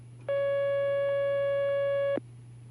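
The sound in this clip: A telephone line tone sounds as a caller is connected to a call-in line: one steady, sustained beep of about two seconds, plain and unwavering, over a low hum, with no voices.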